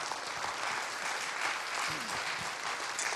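A church audience applauds a welcomed guest with dense, steady clapping that holds at an even loudness for the whole stretch.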